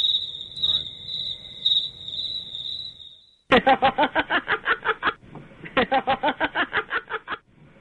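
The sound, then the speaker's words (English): Crickets chirp in a steady, high-pitched trill for a few seconds. Two bursts of rapid, rhythmic pulsing sounds follow. “Did you hear the crickets?”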